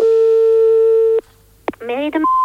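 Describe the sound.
A steady telephone tone sounds after a call is hung up in a comedy radio sketch, cut off abruptly by a click, followed by a brief voice and a higher beep.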